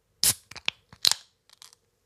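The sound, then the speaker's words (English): A can of lemon tea sour (5% ABV) is cracked open: a sharp crackling burst is followed by several shorter crisp pops and rustles, with a second strong burst midway and faint ticks at the end. “I've got the Skinny Dippin' Lemony Tea Sour. It comes in at 5% ABV. And I'm ready to crack this thing open and see how it tastes.”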